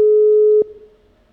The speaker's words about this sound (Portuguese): Atenção, ligando pro ouvinte.